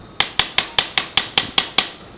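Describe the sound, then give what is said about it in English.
A hammer taps an implant into bone nine times in a sharp, evenly spaced rhythm. Each bright, metallic strike rings briefly and fades before the next. The taps are fairly loud and heard alone, without voices. “The tissue pushes back, or the bone pushes back against the implant as you're tapping it in. The pitch changes, so you're listening as well as feeling, and when it stops, it stops.”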